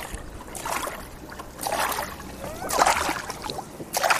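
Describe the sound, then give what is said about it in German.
Kayak paddle strokes splash through water during an outing to collect floating plastic litter, with a few separate swishing bursts of water noise and quieter gurgling gaps between them. “Lass uns da mal hin paddeln.”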